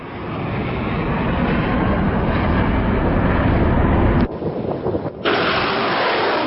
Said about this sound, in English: Sounds of missiles being fired on the port city of Mocha, where the Iranian-backed Houthis have just taken control.